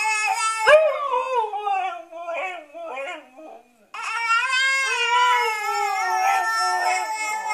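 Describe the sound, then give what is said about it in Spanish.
Dogs howling in long, wavering wails that mimic a baby crying, two drawn-out bouts split by a brief silence, the second steadier and sustained to the end. “Los perros tampoco se quedan atrás. Hay perros a los que les gusta imitar a los bebés.”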